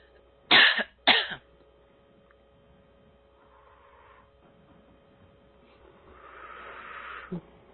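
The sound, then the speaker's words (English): A person clears their throat in two short, loud, rasping bursts, followed by a long quiet stretch over a faint steady hum. “I'm clearing something in the throat for you.”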